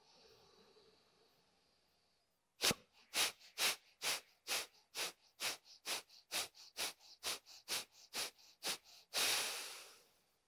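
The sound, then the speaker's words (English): During a breathing exercise, a long run of quick, rhythmic, forceful breaths pumps steadily, then one long, loud deep breath in follows. “Okay, so here we go. We'll do 3 rounds again, and we'll move the air out of the body. And then we'll begin again. 3 rounds. Here we go. Deep breath in.”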